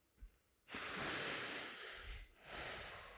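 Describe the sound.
Quiet breathing from two people, a couple of long, soft breaths with a faint airy hiss and no talking.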